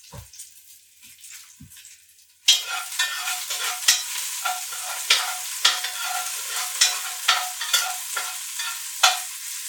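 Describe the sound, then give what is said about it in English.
Scallions sizzle as they sauté in a hot pan, not yet golden brown. A quiet moment gives way to steady frying hiss broken by regular scraping stirs. “I'm still sautéing these scallions. They're not golden brown yet.”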